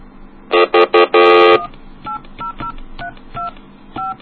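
Telephone dialing tones on a phone line: a few loud, rich tone bursts at first, then a rapid string of shorter, quieter dual-tone beeps in an uneven rhythm, with no talk.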